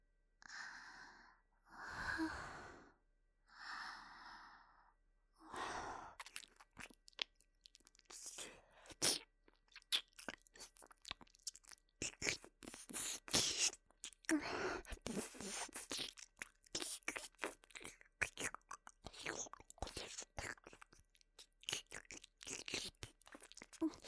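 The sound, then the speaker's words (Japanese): ASMR mouth sounds of eating inside the ear: a few soft, breathy whispers, then a long, steady stream of close, wet clicks, crunches and smacks that go on without pause. “今度はお耳の中まで食べてあげる。”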